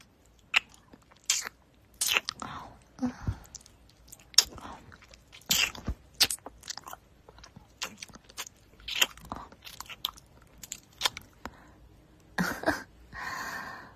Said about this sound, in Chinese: 那女仆帮主人舔舔怎么样？